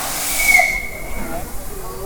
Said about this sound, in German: Jetzt fährt der Zug rückwärts in den Rangierbereich